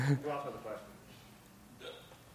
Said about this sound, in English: Someone had a hiccup.